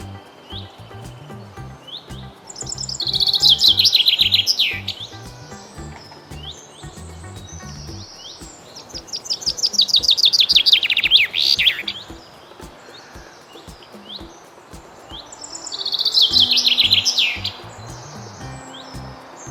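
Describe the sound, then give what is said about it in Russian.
Skylark and chaffinch singing: three louder bursts of high, rapid trilling song rise out of continuous thin chirping and twittering. “жаворонок, зяблик”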